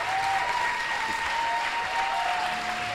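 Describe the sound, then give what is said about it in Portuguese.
A church audience applauding for Jesus during a worship service, dense, sustained clapping with a steady held tone running beneath it. “Vamos dar uma salva de palmas para Jesus.”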